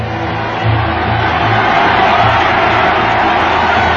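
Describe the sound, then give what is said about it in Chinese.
A large crowd of Greek citizens cheering a warm welcome at the seaside for a returning hero. The roar is dense and steady and stays loud from start to finish. “希腊新政权的领袖和大批市民前往海边迎接。拜伦身穿军装，像凯旋的英雄一样，受到了希腊人民的热烈欢迎。”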